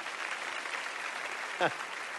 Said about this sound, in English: Why don't you give her a round of applause?